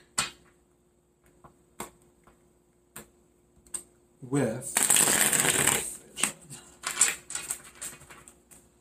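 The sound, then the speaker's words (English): Tarot cards are handled during a reading, with a few light taps and clicks, then a dense, loud riffling shuffle lasting about a second and a half, and a few more scattered taps afterward. “I want to shuffle again.”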